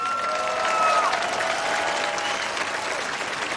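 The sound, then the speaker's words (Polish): Audience applause after a tribute performance at a live concert: a sustained, dense wash of clapping from a large crowd at steady loudness throughout. “Duże brawa.”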